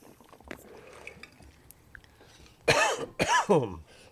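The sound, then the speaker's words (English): A person coughing and choking: after a quiet, murky stretch, a few harsh, loud coughs burst out in quick succession, with a throaty, clearing rasp between them. “I mean, excuse me. I'm just going to choke to death here for a minute.”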